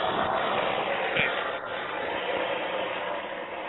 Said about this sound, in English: What was that? That was a helicopter headed for Sky Harbor.